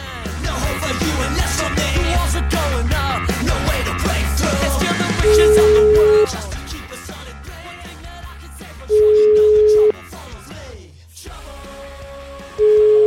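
Ringback tone of an outgoing telephone call in Italy: three evenly spaced, one-second, mid-pitched beeps, the last cut short, sounding over busy background music.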